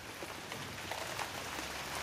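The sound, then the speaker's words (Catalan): A sudden rain shower falls as a steady, soft, continuous hiss of drops, fairly faint and even throughout, with no voices. “No te l'esperaves, la pluja. Ha començat de cop i volta i t'ha enganxat mentre tornaves a casa.”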